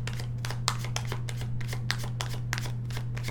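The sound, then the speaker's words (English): Tarot cards are shuffled and handled, giving a quick, steady series of soft papery riffles and slaps over a low constant hum. “I'm looking at the cards to see who wants to talk to me.”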